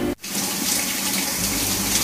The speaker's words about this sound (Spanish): Y como yo cociné, ¿a quién le toca lavar los platos?